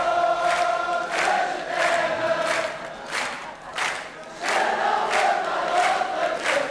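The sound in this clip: A concert audience at the Paris Olympia sings a chorus en masse without accompaniment, many voices rising and falling together in repeated, rhythmic swells.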